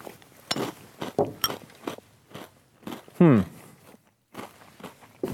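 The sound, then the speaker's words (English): Crunchy bites and chewing of a Reese's peanut butter candy come in a few short, separate bursts with quiet gaps, plus one brief vocal sound in the middle. “They taste odd, I will say. That does not taste like a normal Reese's product. Let me try one more time.”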